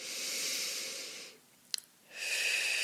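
One deep breath, heard as a long, airy, hissing draw of air, then a quiet pause with a tiny click, then a second long, breathy rush of air.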